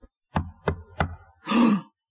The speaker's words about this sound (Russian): Ой, стучат. Кто-то к нам пришел.